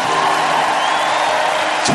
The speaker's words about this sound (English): Yourselves a big round of applause, everybody.